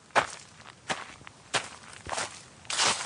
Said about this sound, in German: und spaziert mit schnellen Schritten an seinen Limettenbäumen entlang